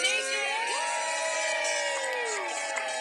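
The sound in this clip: People at Roc Nation cheer and whoop in celebration, a dense and continuous mass of overlapping shouts and high, drawn-out calls.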